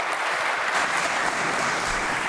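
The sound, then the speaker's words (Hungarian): Applause in a parliamentary session: an even, unbroken patter of many hands clapping, moderately quiet and steady from start to finish. “Köszönöm szépen ezt a kitüntető tapsot és figyelmet.”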